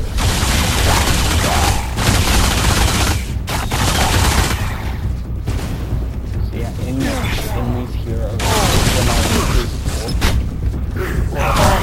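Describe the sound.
Video game gunfire crackles in dense volleys of rapid shots aimed at enemies, with mechanical clanks and booms mixed in and voices over the shooting.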